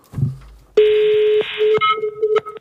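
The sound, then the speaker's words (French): A telephone ringing tone on a call to a Norwegian airline reservation line: a steady electronic tone, followed by broken beeps and clicks. “T'as même la sonnerie”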